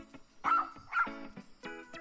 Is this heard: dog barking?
yes